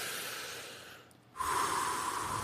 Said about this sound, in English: Let's take three deep breaths. All right. To center ourselves and get ready for this odyssey we're about to do.